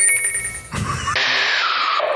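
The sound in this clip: An electronic telephone ring signals an incoming call to a late-night show, a bright, steady ringing tone that changes into a harsher, buzzier burst partway through, with no one talking over it.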